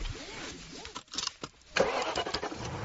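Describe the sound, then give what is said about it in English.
A BMW 3 Series car engine starts: a short stretch of quieter cranking gives way to the engine firing up loudly and running on in a steady, rough drone. “I am test driving a BMW 3 Series today after driving its top rivals.”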